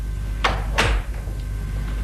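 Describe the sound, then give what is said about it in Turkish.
A door being closed: two short, sharp clacks in quick succession followed by a brief low thud, against a quiet background hum. “Kapıyı kapat”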